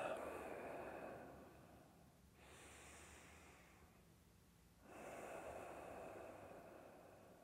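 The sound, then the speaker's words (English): Slow, deep breathing at the start of a qigong session, soft airy inhales and exhales each drawn out over a couple of seconds, quiet and unhurried. “Let's start with two deep breaths.”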